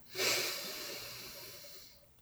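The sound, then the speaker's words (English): One long, deep grounding inhale at the start of a guided breathing session, an airy rush that is loudest at first and then tapers off gradually over about two seconds. “And I like to start all my sessions by taking three deep grounding breaths. So inhale,”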